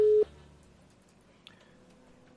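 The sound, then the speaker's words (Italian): The telephone ringing tone of an outgoing call sounds as one loud, steady tone for a brief moment at the start. It then cuts off to a quiet, near-silent line with a faint click. “Allora, ora chiamiamo il nostro ospite Evaristo. Partita la chiamata.”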